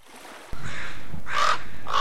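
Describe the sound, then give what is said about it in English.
A raven calling: a few harsh, croaking caws over steady background noise, the last call cut off at the end. “Raven.”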